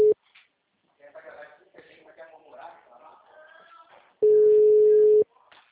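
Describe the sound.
A steady telephone line tone on a call that has gone silent: a clipped burst at the very start, then a loud, even one-second beep near the end, with faint muffled voice-like sounds in between.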